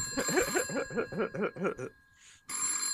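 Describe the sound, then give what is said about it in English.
A telephone rings in a rapid, warbling burst of many quick pulses that stops briefly before sounding again, loud and alone without talking. “So obviously that's the phone ringing. That's what that sounds like.”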